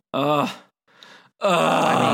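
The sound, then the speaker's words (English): A person groans aloud in two long, voiced moans. A brief, breathy exhale separates them, and the second groan is sustained and strong. “Oh, I was like groaning ready for the next performance.”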